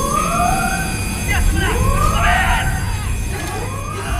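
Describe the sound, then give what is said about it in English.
Warning sirens wail in overlapping, repeating pitch sweeps that rise and fall, loud and continuous over a low rumbling background. “Stretcher bearers shove past with a shrieking gut-shot man, and suddenly the warning sirens begin to wail.”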